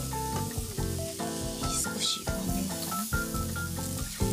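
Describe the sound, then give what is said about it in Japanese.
Eggplant skins stir-frying in a generous amount of oil in a pan for a mapo-style eggplant soup, with a continuous sizzling hiss and stirring noises throughout. “少し多めに最初皮ちょっと炒めたら少し全体を混ぜてあの白いところもちゃんと焼いていきますここである程度しっかり火を通してしまいますね”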